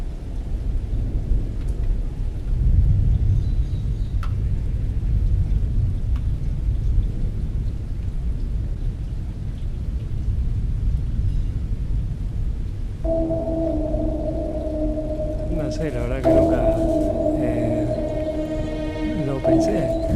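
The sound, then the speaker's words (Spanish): Steady rain hisses over a deep, continuous low rumble, and sustained droning tones join partway through. “aparece esto que es el tema que nos convoca, que es la lluvia.”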